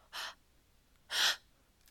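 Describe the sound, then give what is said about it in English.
Two sharp open-mouthed gasps, breathy and airy, about a second apart with near silence between them, the second a little louder than the first. “Would you gasp for me? Open mouth gasps.”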